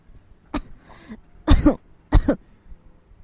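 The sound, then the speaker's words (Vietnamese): Someone coughs after choking on liquor: a short, sharp cough, then two louder, harsh, rasping coughs spaced about a second apart, with nothing else audible. “vừa bị sặc rượu vừa ho khan nói”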